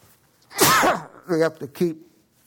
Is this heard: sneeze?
yes